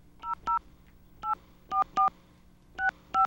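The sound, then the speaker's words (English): Telephone touch-tone dialing of an 800 number: seven short, clean electronic beeps in uneven clusters, each a crisp two-tone chirp separated by brief gaps of near silence. “you'll actually be able to hear things like us dialing it live on the air. All right, let's do it. We're going to call a 800 number.”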